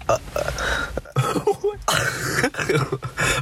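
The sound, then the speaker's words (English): Coughing and throat clearing from a person with a mild cough: several harsh, rough bursts in quick succession, loud throughout, with brief gaps between them and no clear speech. “I have a little bit of a cough. You have a cough? Yes, we both have coughs.”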